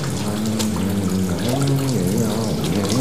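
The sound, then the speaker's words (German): Water runs steadily from a tap into a sink during handwashing, a loud, continuous splashing rush with a low, wavering tonal hum beneath it and no speech. “So, Hände waschen, 10 Sekunden lang, ne?”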